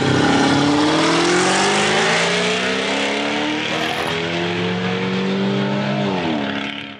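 A high-powered 582-horsepower car engine revs loudly and continuously with no voices, its pitch climbing steadily for several seconds before dropping sharply near the end and settling at a lower roar.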